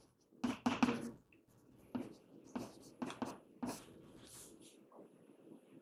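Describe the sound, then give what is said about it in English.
Handwriting strokes from a pen or marker, scratchy and uneven, with a few louder bursts early on and then softer scrapes, faint and in quiet surroundings. “So this is for maybe I should write it like this. Let me make it symmetric.”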